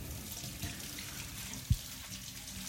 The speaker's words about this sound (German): Die kann ich schon mal schälen. Das heißt, die wasche ich erstmal ab.